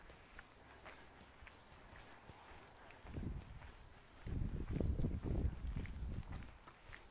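Footsteps in flip-flops make a soft patter of many slapping steps, faint at first and then louder and denser in the second half.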